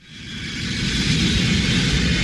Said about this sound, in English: I am so glad we ate before we got on the plane.